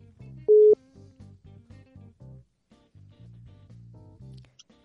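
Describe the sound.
Telephone tones on an outgoing call placed from a radio studio: one loud steady beep, then many short, evenly spaced low tones in a regular rhythm with brief gaps between them.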